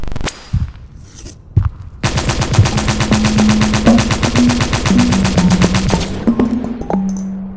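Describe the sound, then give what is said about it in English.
Assault rifle gunfire: a few isolated shots, then a loud, sustained burst of rapid automatic fire lasting several seconds before cutting off abruptly. “Give me my assault rifle.”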